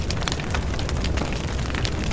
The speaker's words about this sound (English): The fire engine is putting out the fire. Oh no, there is a fire broken out.